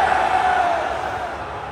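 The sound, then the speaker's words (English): A crowd booing at a live appearance by The Rock: a sustained, loud mass of voices with a droning, slightly falling tone. “You're booing because The Rock was a little late. Is that why you were booing?”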